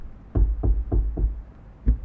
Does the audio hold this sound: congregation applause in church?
no